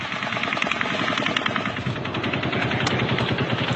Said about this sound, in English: Now this shot sounds like it came from where the first shots came from. Sounds closer than a 32nd floor window.